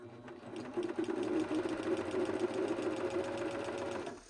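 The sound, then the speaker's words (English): A sewing machine stitches stretchy leggings fabric near the edge of a child's waistband, a steady, fairly faint mechanical whir with a fast rhythmic needle chatter that runs for about four seconds, then stops. “And I'm not stitching like too far away from the edge of the fabric, so it's pretty easy for me to see what's going on and keep a nice uh, waistband allowance.”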